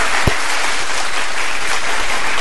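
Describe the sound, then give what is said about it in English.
Clapping sound effect of a crowd applauding: a dense, steady wash of many hands from start to finish, with one brief sharp knock near the beginning. “The actual clapping one. Is it clapping?”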